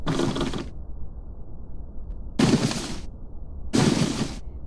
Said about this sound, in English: They're just shooting different objects.